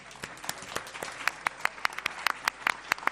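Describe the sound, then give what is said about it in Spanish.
Light applause from a small audience for a music group, a few people clapping in scattered, uneven claps with gaps between them, fairly faint throughout. “Vamos a dar un aplauso”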